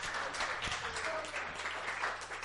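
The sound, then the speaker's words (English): A church audience cheers and applauds in a dense, continuous wash of clapping that stays at an even level throughout. “Give him a cheer.”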